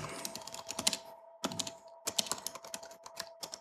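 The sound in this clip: Typing on a computer keyboard during a programming session, with rapid, irregular key clicks in bursts separated by brief pauses, fairly faint.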